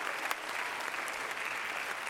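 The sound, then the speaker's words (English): An audience clapping their hands in praise during a church service, producing a dense, continuous patter of applause at moderate, even loudness with scattered sharper claps and no speech. “Clap your hands unto him and bless his name.”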